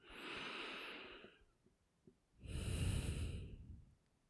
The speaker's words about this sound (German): atme tief ein und aus